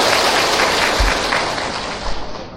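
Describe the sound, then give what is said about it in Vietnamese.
Audience applause at a Buddhist temple gathering, a dense, steady wash of clapping that holds evenly throughout and eases slightly toward the end. “Nếu đồng ý cho một tràng pháo tay thật nhiệt tình để kính mời và lắng nghe.”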